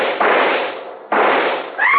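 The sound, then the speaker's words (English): Rifle shots ring out twice in quick succession, each a loud, sharp blast followed by a long, fading rumble. “I raised my rifle and...”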